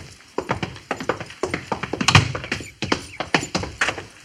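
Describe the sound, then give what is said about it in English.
Hoofbeats of a single horse ridden toward a fort gate, many steady, rhythmic clops and thuds at a brisk walking pace, fairly loud and alone. “I suppose that's the chief riding in alone.”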